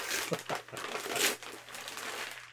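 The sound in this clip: Wrapping paper being torn and crinkled off a neatly wrapped gift, a strategy guide book, in a few rough, noisy rips over steady crackling.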